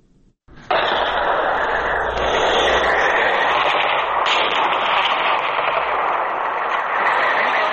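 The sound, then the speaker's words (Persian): Heavy gunfire from clashes between Afghan and Pakistani forces in the Barikot area of Nari district, Kunar, bursts in abruptly and keeps up as a dense, continuous roar of shots to the end. “این صدای که درگیری ها در ساحه بریکوت و دو کلمه ولسوالی ناره ولایت کنر است، جایی که در دو روز گذشته شاهد درگیری های شدید میان نیروهای افغان و پاکستانی بود.”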